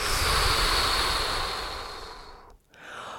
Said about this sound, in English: A big inhale. Exhale through your mouth.